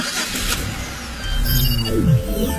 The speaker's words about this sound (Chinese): 我正开着车呢。